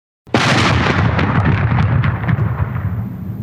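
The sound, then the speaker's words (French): A huge explosion as a projectile is fired from the ground, bursting from a crater-like jet of fire: a sudden, very loud blast that becomes a sustained, dense roar with scattered crackles and rumbling to the end. “Une détonation épouvantable se fait entendre. Une immense gerbe de feu sort du sol comme d'un cratère et le projectile s'envole au milieu de vapeurs flamboyantes.”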